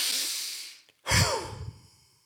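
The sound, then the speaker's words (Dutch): Forceful exhalations from a breath of fire breathing exercise: a long, airy, hissing breath that fades out, a brief silence, then a second strong breath with a rougher, lower push that tails away. “En ken je de breath of fire? Dat is eigenlijk je uitademing heel intens gaan maken en de lucht echt uit je lijf”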